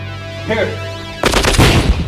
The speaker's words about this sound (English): Fire a round into his medical kit.